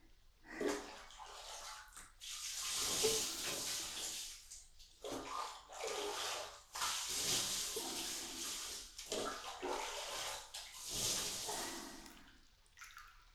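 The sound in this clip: Water runs and pours while someone rinses off, coming in several fairly quiet surges broken by brief pauses. No one speaks.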